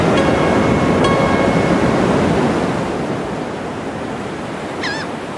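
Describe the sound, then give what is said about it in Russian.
Ocean waves break and wash up a wide sandy shore under misty haze, a continuous broad rushing roar that eases slightly partway through and then swells again near the end. “Широкая песчаная береговая полоса, выбрасывающая волны на берег водная стихия, теряется в туманной дымке.”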